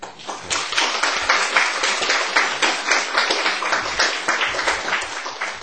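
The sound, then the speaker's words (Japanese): Teachers applaud at a school ceremony in dense, continuous group clapping. It keeps an even, lively texture for nearly six seconds. “それでは、教師の皆さん、先ほど忘れましたが拍手で、”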